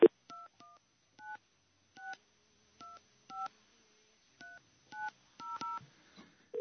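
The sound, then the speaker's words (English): Telephone keypad tones as a number is redialed: a series of short, clean dual-pitch beeps pressed at uneven intervals, fairly quiet, with silence between presses. “Your call cannot be completed as dialed. Please check the number and dial again. Come on. Let me try this again.”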